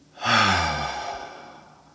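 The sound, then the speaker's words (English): An exhale in a guided breathing exercise, released after a held breath as a voiced sigh. It begins suddenly, sinks slightly in pitch, and fades into a long airy trail with no talk. “We hold, one, two, and we exhale.”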